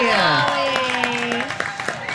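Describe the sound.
An audience at a fair show cheers and claps for a Dolly Parton song suggestion, with sustained shouting voices over scattered, rhythmic hand claps that gradually soften.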